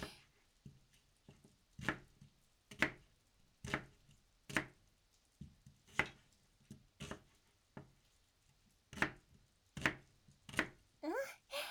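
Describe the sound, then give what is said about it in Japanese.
A kitchen knife chops an onion into wedges on a cutting board, making a series of faint, sharp taps at an uneven pace, with a quicker cluster of cuts at the end. “これをくし形切りに。”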